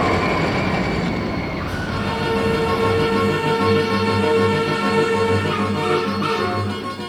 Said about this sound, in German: Also wir versuchen schon alle 20, 30 Sekunden einen neuen Zug loszuschicken.